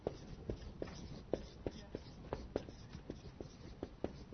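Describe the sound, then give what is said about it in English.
A pen writing on a board makes many quick, faint scratching strokes in an uneven rhythm, each a short dry squeak. “I'm going to try a different pen and see if it works better.”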